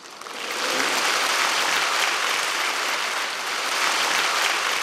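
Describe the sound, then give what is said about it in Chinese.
Warm applause for eight singers after a singing showcase at the Buddha Museum: dense, steady clapping that swells in over the first moment and then holds loud and even for several seconds. “热烈掌声，感谢佛馆好声音八位歌手。”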